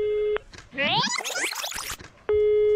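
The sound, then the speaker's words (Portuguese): A phone call rings unanswered: a steady electronic ringing tone cuts off, a warbling tonal passage follows, and the steady ringing tone returns at the end. “Deixa eu ligar de novo. Aí, ó. Não atende, meu.”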